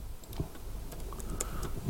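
Typing on a computer keyboard, with a few faint, irregular key clicks scattered over two seconds against a low background hum.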